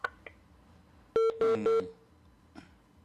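Telephone keypad dialing tones sound as a phone call comes in: three short, steady electronic beeps in quick succession, clear and fairly loud against a quiet background.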